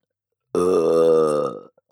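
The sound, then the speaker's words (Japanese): A single loud, voiced burp lasting about a second, steady and tonal, then trailing off quietly. “私にたくさんゲップさせたくて、そのために喉を改造したんでしょう。”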